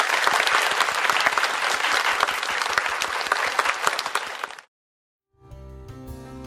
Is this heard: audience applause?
yes